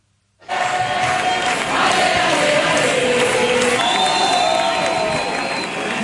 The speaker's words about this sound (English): So that's the sound of days of protests across Spain over the country's housing crisis.